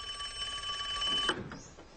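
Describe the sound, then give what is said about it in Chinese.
A telephone rings with one steady, bright electronic tone lasting just over a second, then cuts off abruptly and leaves faint shuffling noise. “你看，说电话响了，快接，没准彩琴打来的”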